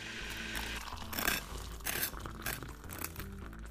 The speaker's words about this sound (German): Ich stelle mir mal schnell einen Tee auf und schmiere mir ein Butterbrot.